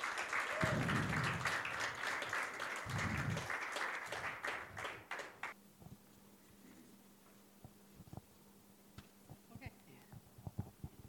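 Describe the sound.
An audience at a women's supper event applauds to welcome a speaker, with dense clapping for about five seconds that then drops away to a quiet room with a few scattered small sounds.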